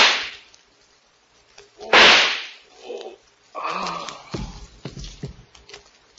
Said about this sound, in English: Keep back or I'll shoot. Oh, no, you won't. One more step and I'll shoot. Tell me that line or I'll kill you.